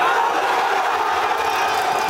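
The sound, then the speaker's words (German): Fans in Spain cheer after their team beats Argentina in the World Cup final for a second world title. A dense, continuous roar of voices and shouts holds at an even level throughout. “Nach Abpfiff des Endspiels dieser Fußball-WM war das. Spanien ist nach 16 Jahren zum zweiten Mal Weltmeister.”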